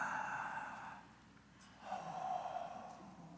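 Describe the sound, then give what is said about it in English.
Relaxing breath exhaled slowly through an open mouth as pain subsides, two long, soft, airy breaths separated by a brief pause, heard alone with no talk. “And then finally, when the pain subsides, it's the relaxing breath. And this is the fun one, all right? Your mouth is open the whole time.”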